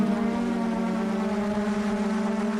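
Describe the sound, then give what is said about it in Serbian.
A steady droning whine comes from the motor of an Australian-made Kookaburra delivery drone, a custom 3D-printed aircraft. The buzzing hum is rich in overtones and holds an even pitch and loudness throughout. “To možda nije iskonski smeh kukubare, ali ovaj zvuk je motor drona kukubara australijske proizvodnje.”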